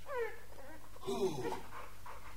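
Faint dog sounds come from the middle of a quiet stretch: a brief high whimpering whine mixed with breathy panting.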